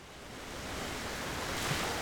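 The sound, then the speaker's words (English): Lake Michigan waves wash onto the beach at Deland Park on a warm, sunny day with a very light north wind. The surf makes a soft, steady hiss that builds slightly, with no distinct single crash. “it was warm and sunny as waves crashed on the beach.”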